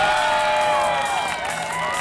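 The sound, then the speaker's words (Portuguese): Enthusiastic applause and cheering, with a dense wash of claps and whoops and excited shouts layered on top, loud and continuous for about two seconds. “Uma salva de palmas pro Jonathan Mello, vai.”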